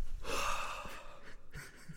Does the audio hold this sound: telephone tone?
no